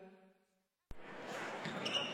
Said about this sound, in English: This may sound like a typical high school basketball game being played on a Friday night in Iowa.